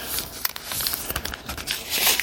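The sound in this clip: Tape torn off a roll while fitting a cat door: crinkly, papery tearing in a few irregular bursts, with no voices over it.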